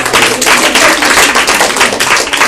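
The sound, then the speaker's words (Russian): Loud, dense applause, with many hands clapping in a rapid, crackling stream that stays strong from start to end. “Спасибо, аплодисменты этим”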